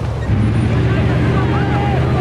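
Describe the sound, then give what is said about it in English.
Humvees turning off a road into factory grounds, a steady low engine rumble with road noise running throughout, while muffled voices talk over it. “The Humvees turn off the road into the grounds of a factory.”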